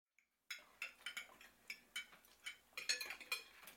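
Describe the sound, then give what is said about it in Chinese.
Bowls and utensils being cleared away, with many sharp ceramic and metal clinks and knocks in an irregular rhythm, faint and with no talk. “你把碗和餐具都收拾干净啊。”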